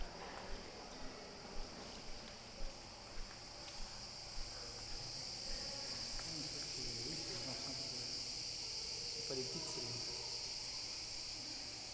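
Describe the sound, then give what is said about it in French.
Cicadas chirping, some of them shut in an enclosure and quieter than usual, forming a faint, steady high-pitched buzz that runs unbroken through the whole recording. “Ah, les cigales sont là-bas.”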